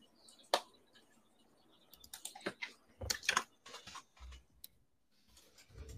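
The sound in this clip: Faint keyboard typing as a slash command is entered: scattered clicks come in short irregular bursts, with quiet pauses between clusters of keystrokes.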